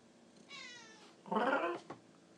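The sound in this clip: A pet cat meows a few times: a drawn-out, wavering meow, then a louder, fuller one, then a short final chirp, with no talk over them.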